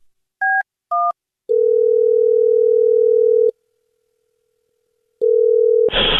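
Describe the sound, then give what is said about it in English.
Telephone keypad beeps and a dial tone as a number is dialed: two short dual-tone beeps, then a long steady tone, a silent pause, the tone resuming briefly, and a sudden burst of noise at the end. “I'm trying to dial JJ's line”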